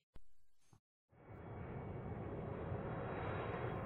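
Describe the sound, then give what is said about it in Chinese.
An airliner's engines roar on arrival at its destination: a brief sound, a short pause, then a broad, steady whoosh that holds to the end. “亲爱的旅客们，你们好，你们乘坐的本次航班已达目的地”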